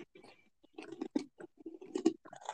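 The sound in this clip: Crunchy chewing of cheese-flavoured pastry sticks topped with sesame, heard as irregular short bursts of biting and munching, fairly faint with brief silences between mouthfuls.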